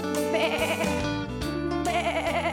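Sheep bleating: a few loud, wavering bleats with a shaky, vibrato-like quality, following one another closely through the whole short stretch.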